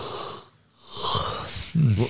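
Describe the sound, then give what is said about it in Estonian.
A yawn with a long, breathy, wheezing draw of air that swells, fades briefly, returns, then ends in a short voiced groan. “See juba haigutad.”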